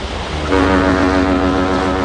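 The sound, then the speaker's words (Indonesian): A ship's horn sounds as a ship heads up a river toward Hulu Ketahun. The loud, steady low tone starts after a brief rumble and holds over a constant noise of engine and water. “tiba-tiba pandangannya tertuju pada sebuah kapal yang akan menuju ke arah Hulu Ketahun.”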